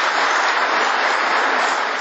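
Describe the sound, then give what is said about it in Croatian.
Applause from ruling-party MPs in the Serbian parliament for the defence minister: thick, even clapping from many hands, sustained and loud throughout without a break. “Aplauz je to vladajućih poslanika za naprednjačkog ministra”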